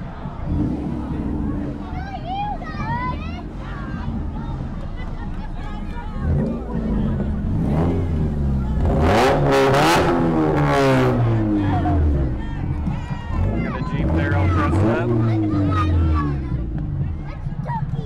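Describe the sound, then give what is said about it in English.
Engines of slingshot vehicles driving in a street parade, a steady loud rumble mixed with crowd noise and chanting or cheering voices throughout. “And behind them we have some more slingshot vehicles.”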